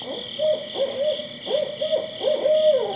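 Barred owl calling: a series of deep, rhythmic hoots with slurred, wavering notes, repeated many times over a steady high-pitched background drone.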